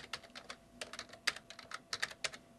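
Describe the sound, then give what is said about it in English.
Fingers type on a computer keyboard in an irregular patter of many crisp key clicks, with short pauses between bursts and a few sharper, louder strikes. “Hang on. Let me type. I don't type that fast.”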